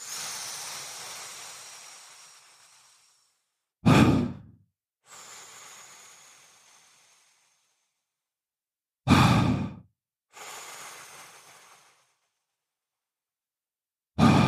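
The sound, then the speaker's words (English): Breathing through a straw as a calming exercise: long, soft, hissing inhales that taper off, each followed by a short, loud exhale that drops away quickly, repeated in a steady slow rhythm with silent pauses and no talking. “So the straw breath sounds something like this. Again, it's in for 2 to 3 times longer on the inhale, and then the exhale is just dropping out.”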